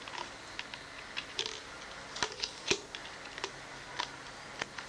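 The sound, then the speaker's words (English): A knife tapping against a pineapple, making many sharp, dry ticks at an irregular pace. The taps are fairly faint, with a couple of louder knocks near the middle, and no voices are heard. “So you just use a knife to hit it. Hit this pineapple.”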